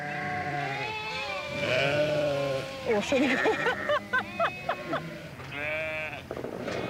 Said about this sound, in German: Geschützdonner und Geblöke. Das gehört zusammen in der Hohwachter Bucht.